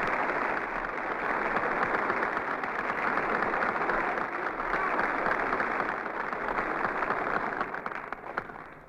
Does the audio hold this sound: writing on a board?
no